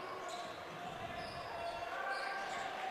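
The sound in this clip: A basketball is dribbled on a court during a Crusaders game, its bounces partly buried in steady crowd noise throughout.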